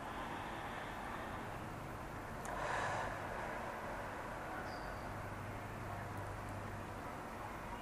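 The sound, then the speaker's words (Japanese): A single deep breath, a soft, airy intake lasting under a second that rises faintly above a steady background hiss. “はい、深呼吸します。”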